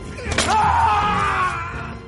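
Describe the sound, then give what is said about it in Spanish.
A metal mallet strikes a hand in a circus-era film scene, one sharp, brief thwack standing out against a busy, tonal background. “Le golpea la mano con una maza metálica.”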